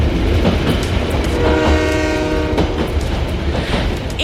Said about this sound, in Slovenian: to je bil vlak